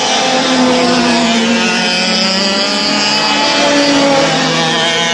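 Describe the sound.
Three 125cc racing karts pass through a corner during a kart race, their two-stroke engines giving a loud, sustained high-pitched whine with layered buzzing tones that hold steady throughout.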